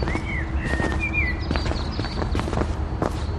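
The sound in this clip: Footsteps walking along a mountain path, a steady series of fairly loud, repeated crunching steps over a constant background.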